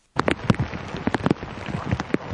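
Rain falling at night in Tokyo, a steady patter of many drops with irregular louder splashes throughout.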